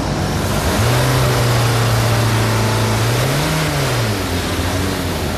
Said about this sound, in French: on va regarder en fait les taux de fumée qui sortent du pot d'échappement. Et on va regarder par rapport à la norme du véhicule. Là, c'est 1,5 à ne pas dépasser. On va voir avec les accélérations si on est dans les normes.